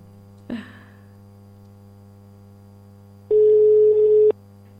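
A telephone line ringing while a call is placed: a soft click, a pause, then a single steady ringing tone lasting about a second over a constant low hum.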